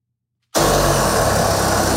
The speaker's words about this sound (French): Avec une scie, un travailleur portant du caoutchouc de la tête aux pieds s'attaque à une immense cuve blanche.